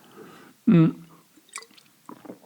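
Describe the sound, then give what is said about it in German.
Someone pauses to take a sip of a drink: a short, loud voiced gulp followed by a few soft, wet swallowing clicks and smacks. “Oh, ich muss mal einen Schluck trinken.”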